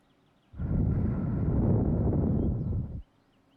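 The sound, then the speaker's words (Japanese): Breath blown onto a microphone for a sound check makes one loud, sustained, rumbling burst of air noise lasting about two and a half seconds, heavy in the low end, then cuts off abruptly. “息を吹きかけて、チェック完了。”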